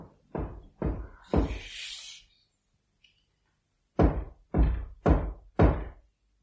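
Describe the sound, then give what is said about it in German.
Heavy knocking on a door in a high-vaulted Gothic room: three loud, dull thuds, then a pause, then four more evenly spaced, firm knocks. “Da klopfte es.”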